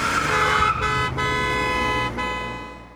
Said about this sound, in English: The squeal of tires only briefly preceded the long, loud blast of a horn and a great deal of shouting.